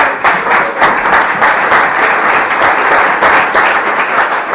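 A loud, dense round of audience applause at a religious gathering: many hands clapping in a continuous roar that stays steady with slight surges throughout.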